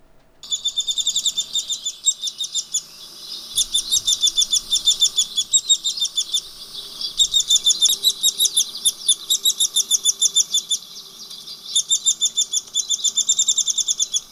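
Bird nestlings make loud, incessant begging calls: rapid runs of shrill, high chirps repeat in several long bursts with brief gaps between them. No voices are heard.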